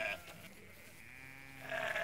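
Sheep bleating on a farm as a flock of ewes is fed: a few wavering, nasal bleats, with one at the start and a louder one at the end over a low, steady background.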